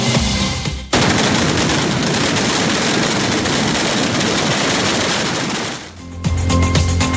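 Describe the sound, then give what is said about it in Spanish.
A long string of firecrackers goes off at a patron-saint town festival in Xeraco, a dense, loud crackling barrage of rapid bangs lasting several seconds, with quieter noise before it and after it. “este es el sonido de la espectacular traca kilométrica que se lanzaba ayer en las fiestas patronales de Xeraco”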